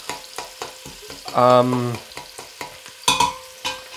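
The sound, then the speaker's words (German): Onions sizzle in a pan as the base for a vegetarian goulash, with a soft frying hiss. Scattered stirring clicks and scrapes run through it. “Okay, gehen wir mal den Zwiebel hinein. So, man kann schön hören, der Zwiebel röstet da schon an.”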